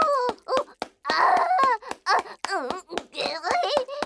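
A child cries with many short, choppy sobbing bursts and wavering moans, rising and falling in pitch in a broken, hiccuping rhythm with brief gasps between them.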